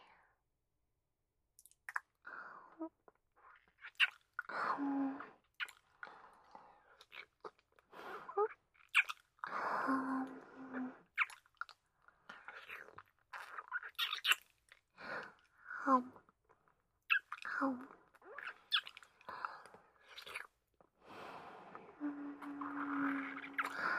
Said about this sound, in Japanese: もっと、キス、させてください。